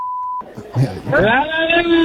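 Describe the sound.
A censorship beep covering a swear word: one steady, loud, pure electronic tone lasting under half a second, then cut off sharply as people start talking.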